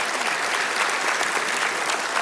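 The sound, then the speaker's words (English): A church audience gives loud, sustained applause, a thick unbroken roar of many hands clapping at an even level from start to finish. “So if that's you, big, huge round of applause in all of our campuses.”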